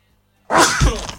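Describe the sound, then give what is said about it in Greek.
A single sudden, loud sneeze bursts out after a moment of near silence, sharp at the start and then fading in a breathy rush. “Φτερνίστηκα ρε φίλε.”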